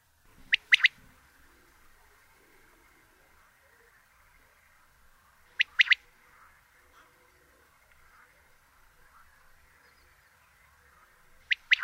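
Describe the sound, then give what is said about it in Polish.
Bird call phrases sound singly three times, spaced well apart. Each is a sharp two-syllable call with a short gap between the syllables, over a faint steady background. “Frazy te mogą występować pojedynczo, gdy ptak jest spokojny,”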